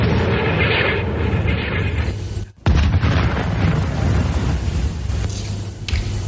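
Artillery cannons fire in a war setting: a loud, continuous booming rumble that cuts out briefly midway, then bursts back in and rolls on.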